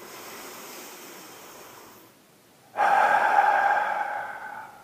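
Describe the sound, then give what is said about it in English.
Breathing during a guided breathing exercise: a long, soft breath drawn in, a short pause, then a louder, rushing exhale through the mouth that slowly fades. “Let's take a breath together in. Exhale through the mouth. Do that again.”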